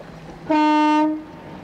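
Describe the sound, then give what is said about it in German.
Ship's horn sounding as the vessel departs: a single loud, steady, mid-pitched blast of about half a second that fades away, with no talk over it. “Ich glaube, die Henriette fährt ab.”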